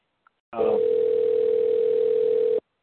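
A telephone dial tone heard while calling someone: one steady, single-pitch tone holding for about two seconds, preceded by a tiny click.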